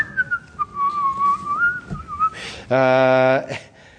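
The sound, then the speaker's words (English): Someone whistles a short, wavering tune for about two seconds, a thin clear line gliding up and down, followed by a brief buzzy voiced sound. “you read it and then you start kind of whistling a little tune and glancing around to make sure you no one's looking as you flip the page”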